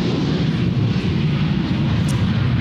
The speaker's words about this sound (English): Really lucky today to be sitting here having this interview watching some spectacular aircraft honing their way out of the sky. Occupational hazard when you're doing these interviews.